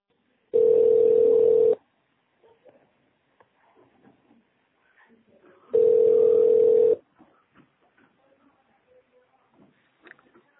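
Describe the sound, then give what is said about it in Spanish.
Telephone tones sound on a call line to an office number after a prompt to dial an extension: two long, steady mid-pitched tones, each a little over a second, separated by a pause with faint scattered clicks and noises. “Si conoce el número de extensión, márquelo ahora.”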